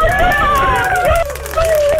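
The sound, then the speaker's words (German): High-pitched children's voices of grandchildren making noise in the background, with wavering cries and shouts that overlap with other speech throughout. “Wer ist denn da im Hintergrund? Ja, meine Enkel eben.”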